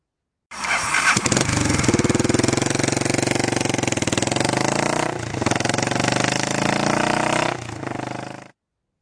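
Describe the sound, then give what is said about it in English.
A Honda XBR 500 motorcycle engine starts and runs at a loud, steady thumping idle, its pitch rising and falling with a few throttle changes before it abruptly cuts off. “that one is one that no one would ever guess because it's a very obscure bike that was not sold in the United States. It is a Honda XBR 500”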